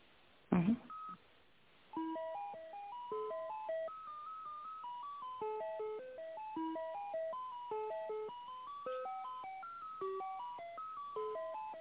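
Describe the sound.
Electronic tones play over a telephone line while a call is being transferred. A short click comes first, then a steady, repeating sequence of stepped, beeping notes continues to the end.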